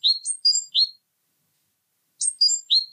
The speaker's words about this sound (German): Das ist noch nicht die Zizibä, ne? Es ist nicht ganz, aber es ist so die typische Silbenabfolge. Und da kann auch jede Kohlmeise wirklich verschieden klingen.